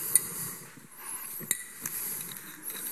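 Faint clinks of a glass bottle being handled, with a few light, scattered taps over a low background hiss.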